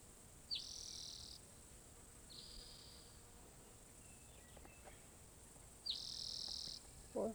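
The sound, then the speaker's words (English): Two birds singing, heard as three faint, high, buzzy trills in short bursts, rising out of a steady background of insect-like hiss. “Two birds singing.”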